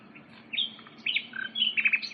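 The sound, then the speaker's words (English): Birds chirp in a forest: short, high-pitched calls come in a few quick bursts, with quieter tweets between them over a faint, hushed background. “They heard the birds,”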